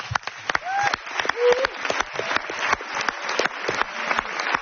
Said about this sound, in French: Dans le doute, faites quand même une ovation à notre chroniqueur, Hamziane.